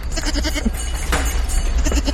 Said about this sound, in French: Alors là, t'as des chèvres du Rhône. Là, t'as trois chèvres de Savoie.